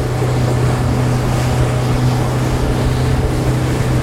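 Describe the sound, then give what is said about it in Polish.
A motorboat with a sixty-horsepower engine sets off on a river, a loud, steady engine drone with a low hum beneath a constant rush of wind and water. “Sześćdziesięciokonny silnik pozwala tutaj osiągnąć duże prędkości i ruszamy.”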